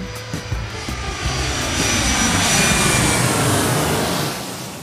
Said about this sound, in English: So buckle your seatbelts and make sure your tray tables and seats are in their upright positions as part one of Mónica's round trip story gets ready for takeoff.